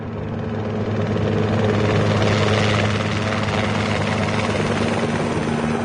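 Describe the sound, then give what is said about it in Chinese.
Aircraft engine noise as a plane flies and speeds toward a target area: a steady, dense low drone with sustained humming tones. It swells slightly early on, then holds level throughout, with no voices. “飞行员立刻调准方向，加速向目标区飞去。”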